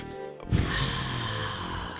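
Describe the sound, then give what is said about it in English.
A person draws one long, deep breath on request: a sudden airy intake that holds steady and moderately loud for about a second and a half, with no talk over it. “Can you just take another deep breath for me?”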